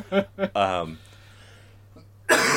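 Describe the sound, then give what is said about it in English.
A person's small cough: a few quick rough bursts and a longer voiced tail, then near silence until a loud breathy burst at the end. “I'm going to cut that little cough out.”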